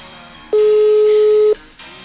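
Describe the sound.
A single steady telephone ringback tone sounds for about a second over a faint background hiss while a call goes unanswered, then cuts off.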